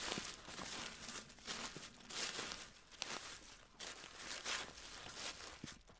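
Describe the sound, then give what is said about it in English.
Faint footsteps crunch steadily over the forest floor while walking deeper into the woods, with soft, irregular rustling of leaves and twigs under each step. “But we keep walking deeper into the woods.”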